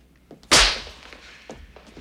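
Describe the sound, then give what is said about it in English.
A hard slap during a fight, a single sharp, loud crack with a short decaying tail, followed by a few faint knocks and shuffles. “He slaps Holland hard, then backs him into a corner beside a fireplace.”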